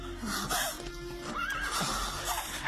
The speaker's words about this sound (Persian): به ما رحم کن، برویم سوار گاری شویم. برویم، حرکت کنید، زودتر حرکت کنید.